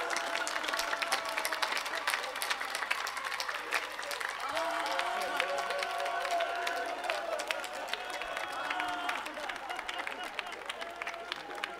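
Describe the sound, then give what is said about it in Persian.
Applause for the bride and groom at a wedding: dense, continuous clapping from a crowd for about twelve seconds, fairly quiet, with voices talking mixed in throughout. “پس حالا که اینجوری شد برای سلامتی عروس و داماد بذارید دست بزنید.”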